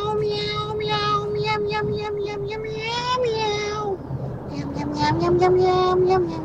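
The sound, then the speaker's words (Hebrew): A person sings a song entirely in imitation cat meows, sent in as a voice message: sustained, melodic meow-like tones that rise and fall, with pitch steps and a steady level throughout. “ביקשנו מכם בתחילת השעה לשלוח אלינו הודעה קולית ולשיר שיר בשפת החתולים.”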